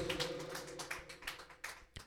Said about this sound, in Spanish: Aleluya. Démosle palmas al Señor. Gloria a Dios.